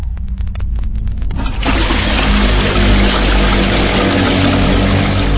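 Urinating in a bathroom, a sound effect in an audio drama: after a few light clicks, a loud, continuous pouring stream starts and keeps splashing steadily to the end.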